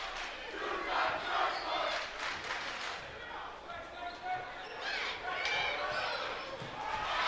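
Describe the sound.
A basketball dribbled on the floor during a game, the bounces partly buried under loud, continuous crowd noise, with a commentator speaking over it.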